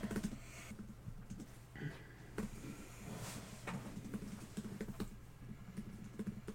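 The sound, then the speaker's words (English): Typing on a computer keyboard: rapid, irregular clicks of keystrokes under a steady low hum. Occasional louder key presses stand out, and brief murmurs of voices can be heard. “So watching you type.”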